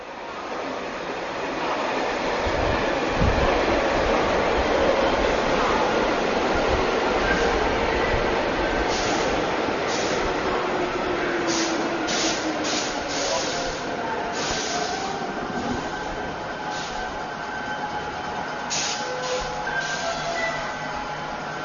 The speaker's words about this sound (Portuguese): Os metrôs, que são trens que circulam por baixo da terra, também deveriam ser construídos em várias cidades.